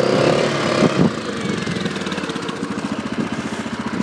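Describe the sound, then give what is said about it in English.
Engine of a Yamaha Grizzly 660 four-wheel-drive quad, loud and rumbling, with a brief surge near the start before settling into a steady, rhythmic throbbing chug. “It's a great little quad, this, actually. Yamaha Grizzly 660, four-wheel drive.”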